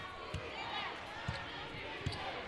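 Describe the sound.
A basketball is dribbled during a women's college game, MTSU against New Mexico State: three solid, evenly spaced thuds rise over a steady crowd murmur while a voice talks.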